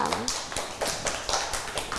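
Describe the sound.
Children clap for a classmate during a class about helping with housework. A scattered run of light, uneven claps follows a brief voice at the start.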